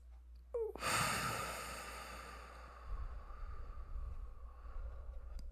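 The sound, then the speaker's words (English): A deep breath taken during a guided relaxation exercise: a faint, airy breath that swells quickly, then eases into a long, soft exhale that fades away, with no talk over it. “Let's do one more big breath together.”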